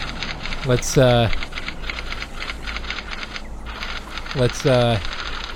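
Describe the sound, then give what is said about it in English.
Fingers type on a computer keyboard in a rapid, steady clatter of small clicks that runs the whole way through. A voice speaks briefly twice over the typing. “Let's type out the story together.”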